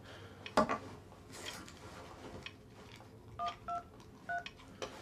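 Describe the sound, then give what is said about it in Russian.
Telephone keypad tones as someone dials to make a call: a sharp clatter, then a few short beeps in an uneven rhythm, with nothing else over them. “Звонит начальнику Валере.”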